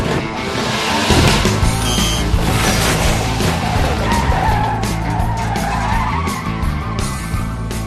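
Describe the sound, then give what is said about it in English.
Car tires spinning and skidding in a long, harsh squeal over a roaring engine, loud and unbroken from start to finish with no pauses or voices. “You have them spinning tires, do you?”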